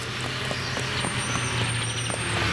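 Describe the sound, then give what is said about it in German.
Construction machines drive slowly, giving a steady, low engine rumble. A faint high whine runs above it, and the sound holds at an even loudness without pauses. “Da siehst du, doch Baumaschinen. Auf Feier, es geht schon los. Was machen wir denn jetzt? Mal sehen, noch ist alles drin. Die fahren langsamer.”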